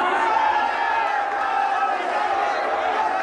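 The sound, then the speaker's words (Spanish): A crowd cheers Gandhi as he leaves the courtroom. A dense, steady mass of many voices shouts and chatters throughout. “Jaleado por su público, Gandhi deja el banquillo de acusados y se dirige a la salida. Fuera la multitud le espera aguantando el fuerte aguacero.”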